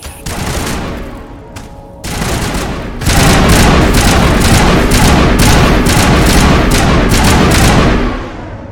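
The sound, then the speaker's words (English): Video game gunfire as a Geth is shot: a few sharp shots at first, then from about three seconds a loud, dense, continuous burst of rapid fire that carries on almost to the end. “Alright, we shot a Geth.”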